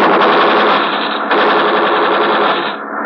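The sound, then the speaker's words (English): Loud, sustained gunfire, warning shots fired in front of a man near a ship, forms a dense, unbroken rapid rattle from start to finish, dipping slightly just before the end. No voices. “Fire in more! We fire in front of him.”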